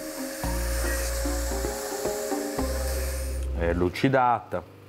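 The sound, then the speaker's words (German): A machine polishes a hardened knife blade with a steady droning whir. Brief scraping contacts cut through the drone now and then, and a man's voice speaks over the sound near the end. “Die fertig gehärtete Klinge wird nun an der Maschine poliert.”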